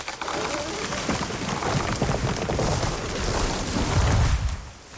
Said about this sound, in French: Alors en fait, là, c'est la chute d'un arbre. La fibre qui craque et l'arbre qui tombe.